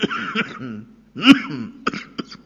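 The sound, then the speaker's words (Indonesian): A cough rises out of an Islamic religious lecture in Indonesian: one loud, rough burst in mid-clip, framed by softer throaty voiced sounds before it and a few short, faint bursts after. “Batuk”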